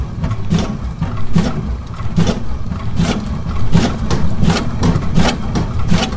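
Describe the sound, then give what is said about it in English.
An elliptical exercise machine runs in a steady, repeating cycle of whooshing strokes over a constant low mechanical hum, each stroke roughly three-quarters of a second apart and evenly loud throughout. “All right, secret sound number 4, an elliptical.”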